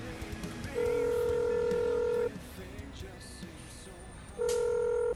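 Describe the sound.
Phone dialing tones: two long, steady electronic beeps, the first lasting about one and a half seconds and the second shorter, over faint background noise.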